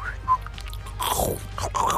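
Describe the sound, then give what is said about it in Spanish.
Someone chews chicken with wet crunching and biting noises, a few quick chomps and mouth sounds packed into two seconds. “Mil disculpas, yo como así mi pollo, sí.”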